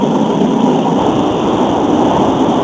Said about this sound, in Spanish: Si estamos escuchando un poco de ruido, pues lo escuchamos, ya. Ya, lo que me hace es el tren.